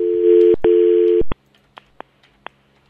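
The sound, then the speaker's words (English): A telephone call is dialed: a steady telephone tone, briefly broken twice, then cuts off, followed by a few short, faint clicks. “hang on, let me call her.”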